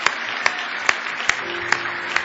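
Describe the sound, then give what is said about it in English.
An audience claps in praise during a church service, about six sharp claps in unison landing evenly at a steady brisk beat over a continuous wash of crowd noise. “Give him a big hand clap of praise.”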